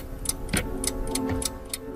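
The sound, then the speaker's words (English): Ticking of the mechanical gears in a tower-like wooden clock: crisp, evenly spaced ticks in a steady run over a faint, constant low hum. “I'm standing in front of a tower-like wooden clock. Its mechanical gears control six screens”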